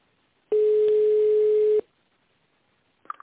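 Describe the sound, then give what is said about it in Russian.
A telephone ringback tone during a call transfer to an internal extension: one steady, loud, mid-pitched tone lasting just over a second, then quiet and a faint click. “Перевод звонка на внутренний номер 5015. Минуточку.”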